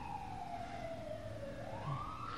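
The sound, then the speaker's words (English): An ambulance siren passing by near a fire station: a single faint wailing tone that slides slowly downward and then rises again over a low traffic rumble. “There are a lot of ambulances that go by here. And emergency equipment. There is a fire station about 3 blocks away.”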